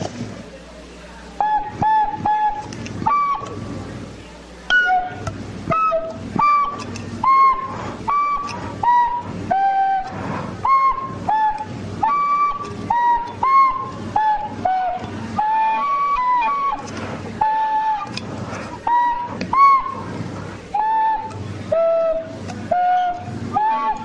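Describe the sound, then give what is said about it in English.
Tin whistle playing a lively St. Patrick's Day tune: a bright, high melody of many short notes that carries on without pause over a steady rhythmic pulse. “let's play another here tin whistle song for the listeners”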